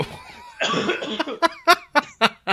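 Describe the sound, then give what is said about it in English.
Coughing fits from someone choking on a drink: a rough, throaty burst, then several sharp coughs in quick, uneven succession, loud and alone. “excuse me. Choking.”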